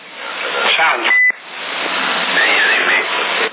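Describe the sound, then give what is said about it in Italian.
A single short electronic beep comes through a CB radio channel. It is a brief, steady tone that cuts through constant band-limited hiss and noise. “vedi un po' se va bene così, se si sente il bip.”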